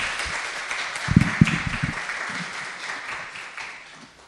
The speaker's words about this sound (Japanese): じゃあ拍手を持って歓迎して御言葉の台に立っていただきたいと思います。